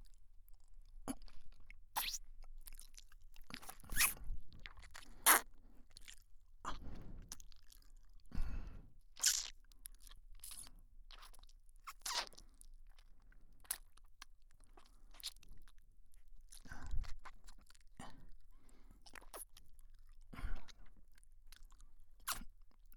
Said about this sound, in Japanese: 次は噛むんだったよな。